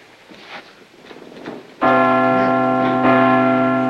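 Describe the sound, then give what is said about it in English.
Giant church bells in a bell tower, pushed by foot to swing, burst into loud, rich ringing after a faint opening, with a second stroke swelling the sustained, shimmering tones. “Flat on the beam and shoves the giant bells with his feet.”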